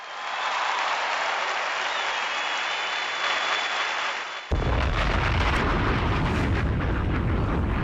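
An audience applauds for a DJ at a show, a steady, dense wash of clapping that suddenly grows louder and fuller about halfway through.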